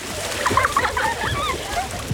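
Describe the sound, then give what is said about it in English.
Children splash in a swimming pool with a steady wash of sloshing, spattering water and brief high, squeal-like sounds mixed in. “Wow, look at Harper. She's so confident in the water. I know, she's my little mermaid. I can barely get her out. Seriously, she's come so far. She's like a different kid in the pool these days.”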